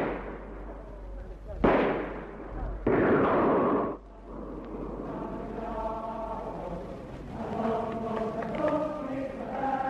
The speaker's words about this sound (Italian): Ora sparano di nuovo.